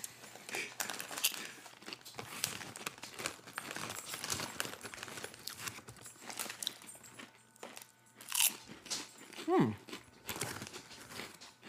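Crunching and chewing of thin, pepper-seasoned Lay's potato chips: many faint, crisp cracks and crunches in an uneven rhythm, with a few louder bites standing out.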